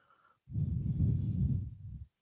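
A single long exhale during a yoga flow, a soft, breathy rush of air that begins after a brief quiet, holds fairly steady for about a second and a half, then stops abruptly.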